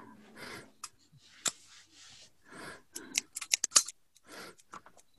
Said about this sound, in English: Got some scissors.